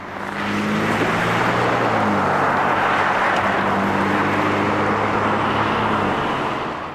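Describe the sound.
Traffic rumbles steadily at the corner of Colton Boulevard and 19th Street West in Billings, Montana, on a snowy winter morning of minus 3 degrees, a continuous loud roar of road noise with no distinct single pass-by.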